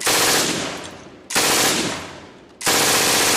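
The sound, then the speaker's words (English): Rifle and machine gun fire from a watchtower at a prisoner-of-war camp: three loud, sustained bursts of automatic fire, each starting abruptly and tapering off before the next. “a nearby watchtower opened up with rifle and machine gun fire.”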